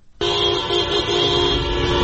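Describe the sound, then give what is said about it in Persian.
Car horns honk in a street traffic jam on Valiasr Street, Tehran: a loud, sustained blare breaks in abruptly after a short quiet moment and holds steady to the end. “یک صدا رو میشنویم که راوی در خیابان ولیعصر در ترافیکی گیر کرده که زنان بدون روسری از میان ماشین‌ها میگذرن”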